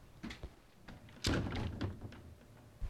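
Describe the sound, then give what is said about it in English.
A chest of drawers with its drawers pulled open tips over: a few faint knocks, then one heavy thud with a rattling clatter that fades, and a final sharp knock at the end, all fairly quiet overall. “I'll open the bottom drawer, the middle drawers, and here we're just about to reach the tipping point.”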